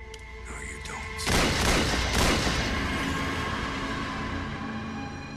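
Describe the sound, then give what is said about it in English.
Gunshots in a radio drama showdown: a sudden loud burst of gunfire, then a second surge, fading into a long rumbling tail of sustained noise. “Gunsmoke swirls around Jack's head as Nina lies dead on the ground.”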